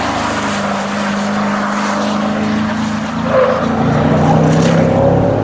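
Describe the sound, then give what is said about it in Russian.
A Land Rover performance version's engine, the kind tuned at the Nürburgring, gives a steady, throaty drone with a strong tonal note. It grows somewhat louder and busier about halfway through. “Так звучит Land Rover”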